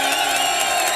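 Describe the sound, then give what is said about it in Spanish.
A large stadium crowd cheers loudly in a dense, unbroken roar of massed shouting voices held at full volume. “que suena así de fuerte. Mira cómo suena el público de hoy.”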